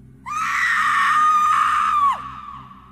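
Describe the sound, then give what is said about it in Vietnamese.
A loud, sustained scream, voiced as a drowned ghost, holds a steady high pitch for about two seconds, then drops sharply and cuts off, leaving a faint fading tail. “Con chết trôi gào to lên, rồi nó biến mất.”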